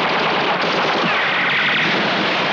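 Machine guns fire in one sustained, loud, dense stream of rapid shots, an unbroken crackling barrage with no pauses and no voices.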